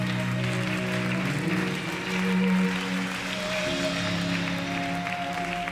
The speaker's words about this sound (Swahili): Ongeza makofi tena kwa Yesu.